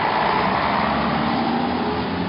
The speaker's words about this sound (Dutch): Tom Poes rende achter de autobus aan en hees zich op de treeplank.